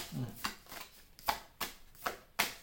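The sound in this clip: Tarot cards being shuffled during a reading: faint, crisp riffling bursts repeat at a brisk, slightly uneven pace, each a short papery rush of fluttering card edges.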